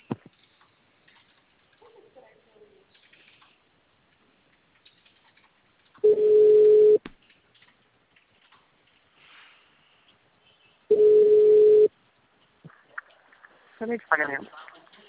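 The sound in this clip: Telephone ringback tone while a call is being placed, with two steady, mid-pitched rings of about a second each separated by a pause, over a thin phone line with faint voices around them.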